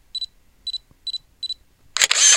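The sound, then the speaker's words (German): A camera taking a photo gives four short, high electronic beeps in a steady rhythm, then a loud, noisy burst of the shutter firing at the end. “Stoppe die Bewegung, mache ein Foto.”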